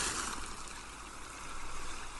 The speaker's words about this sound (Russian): Шум прибоя погружает вас в приятную дремоту.